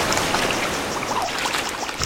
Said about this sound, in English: This is our second waterfall.